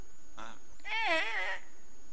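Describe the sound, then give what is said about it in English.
A human voice imitates a horse, making a brief sound followed by a quavering, nasal whinny-like call lasting about half a second. “That wasn't a very good horse impression, was it?”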